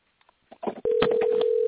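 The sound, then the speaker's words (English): A steady electronic telephone tone holds one unchanging pitch for about a second, right after a brief burst of muffled sound. “Please let Roger answer that phone.”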